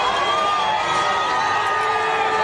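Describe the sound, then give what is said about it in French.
Thousands of Brazilians cheer Lula on his release from prison, a dense, sustained roar of many voices with shouts and whoops that holds steady throughout. “ils étaient hier soir des milliers de Brésiliens à venir acclamer Lula à sa sortie de prison. Oui, à l'ovationner.”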